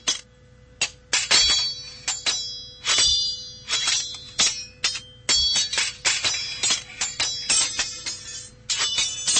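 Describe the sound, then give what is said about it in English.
A sword fight sound effect of clanging blades, with many sharp metallic clangs in irregular bursts, each ringing briefly before the next strike, fairly loud and with no talking. “I come up with a better sword effect. The one of them sound like he dropped it.”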